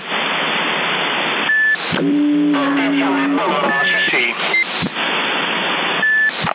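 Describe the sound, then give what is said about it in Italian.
A few short electronic beeps on a CB radio at 27.075 MHz with a muted carrier, sounding through steady loud static hiss, with whistling tones heard between them. “portante muta, sente solo il bip.”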